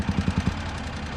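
A car engine running, a low rumbling drone that opens with five quick rhythmic pulses in the first half second and then settles into a steady hum.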